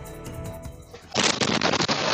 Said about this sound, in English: We have new details in the fatal home explosion in Pennsylvania that killed five people. New video shows just how destructive it was